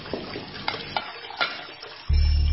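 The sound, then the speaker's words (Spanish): Dishes being washed: a few light clinks of plates and cutlery, then a sudden loud, steady rush of water that fills the end. “Usa el agua para remojar los platos y para el enjuague final.”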